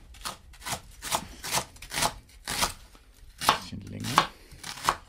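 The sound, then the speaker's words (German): A sharp kitchen knife chops leek into medium pieces, making a steady run of many crisp, fairly quiet strikes against a cutting board at a brisk, even pace. “den Porree mal so in mittelgroße Stücke. Man kann die Schärfe des Messers richtig hören, stellt Andi Knoll fest.”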